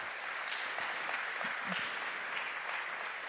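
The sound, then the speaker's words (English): Applause from a church audience welcoming visiting missionary guests: continuous, even clapping from many hands at a steady moderate level from start to finish. “Now, why don't you put your hands together and welcome them to New Life?”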